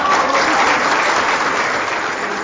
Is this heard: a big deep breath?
no

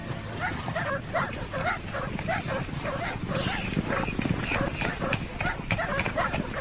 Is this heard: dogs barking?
yes

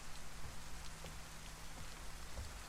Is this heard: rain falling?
yes

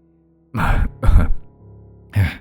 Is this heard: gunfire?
no

